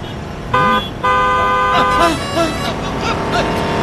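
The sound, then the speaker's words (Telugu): A car horn honks twice on a road while the driver passes a pedestrian. The two loud, sustained, steady-pitched blasts are followed by voices talking. “మీరే కంగారుగా నడుస్తున్నారు, horn కొట్టినా మీకు వినిపించడం లేదు.”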